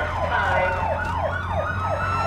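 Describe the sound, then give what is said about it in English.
Police car siren in a video game chase, wailing in rapid, repeated rise-and-fall sweeps over a steady low engine rumble, loud and unbroken throughout. “So you just have to hit the cop car once again and dodge the other ones.”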